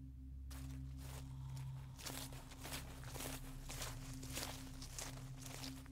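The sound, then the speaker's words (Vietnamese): Slow footsteps approach from behind, soft repeated steps over a steady low hum, fairly faint and evenly paced with no talk. “đằng sau lưng của Chiến có tiếng bước chân chậm chậm đi đến.”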